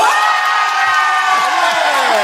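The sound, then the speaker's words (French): A live audience cheers, shouts and whoops loudly to vote by noise at a show, a sustained dense roar of voices with high rising and falling whoops throughout. “Que ceux qui pensent que Jérôme n'est pas coupable fassent du bruit.”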